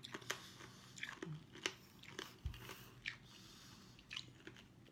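Someone chews sherbet fruit sweets with powdery sherbet centres. Many faint, crisp crunches and soft squishy bites come in an irregular rhythm, with no talking.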